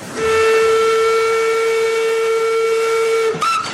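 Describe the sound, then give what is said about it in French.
Whistle of a 126-year-old steam locomotive returned to winter service on the Baie de Somme line: one long, loud, steady note that cuts off abruptly, then a short, higher-pitched whistle at the very end. “Une locomotive à vapeur, 126 ans au compteur, qui reprend du service pour l'hiver. Elle crache sa fumée direction le Far West Picard, la baie de Somme.”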